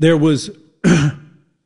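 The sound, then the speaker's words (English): A person coughs with a harsh, throat-clearing sound in two short bursts separated by a brief pause. “Sorry, I didn't mean to cough in your ear.”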